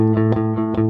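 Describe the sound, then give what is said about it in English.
Bass guitar played with a pick using alternate up-and-down strokes, a quick run of repeated picked notes on one low pitch, each attack sharp and the tone sustained between them. “There's a way that you can actually play the bass up and down with alternate picking. This is alternate picking here.”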